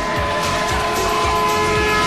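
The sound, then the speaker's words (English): Police car setting off at speed, heard as a loud, continuous roar of engine and road noise that holds steady for about two seconds. “Police car sets off.”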